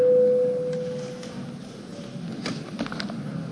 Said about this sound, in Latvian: Līdz ar to mums jābalso, lūdzu zvanu.